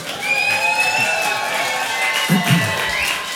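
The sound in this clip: Audience applause mixed with cheering and shouting from the crowd, a continuous wash of noise with a few louder bursts of voices near the end.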